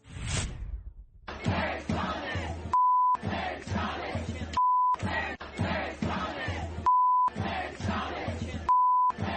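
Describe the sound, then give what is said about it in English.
Protesters' crowd noise during arrests at an abortion-rights demonstration in New York City: loud, dense shouting and chanting, repeatedly cut by steady, flat electronic beep tones between bursts of crowd sound. “Well, what you're hearing there were arrests during pro-abortion protests in New York City.”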